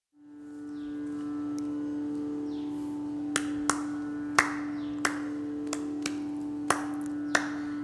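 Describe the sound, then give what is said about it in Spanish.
Rhythmic hand clapping keeps time for a vocal performance. About eight sharp, crisp claps fall in a steady pulse starting a few seconds in, over a sustained droning tone that holds throughout. “Las voces y un poquito y de palmas con las que marcan el ritmo.”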